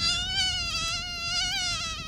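A mosquito buzzes in a steady, thin, high whine with a slight wavering pitch, continuous and alone, with no voices, in a camping setting.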